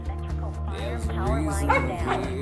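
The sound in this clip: A dog barks at a sleeping crew, letting out several quick yips and barks with a whimpering edge, mid-pitched and fairly loud, over steady background music.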